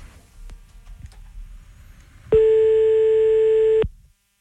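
A telephone line tone sounds while a call is being placed: one steady, buzzy tone lasting about a second and a half, loud and alone, after a stretch of faint low rumble and a few soft clicks.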